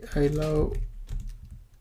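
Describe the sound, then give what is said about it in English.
Typing on a computer keyboard while writing an HTML paragraph. A brief voice is followed by a few light, quick key clicks at a soft level. “inside of this one I'm gonna just type something”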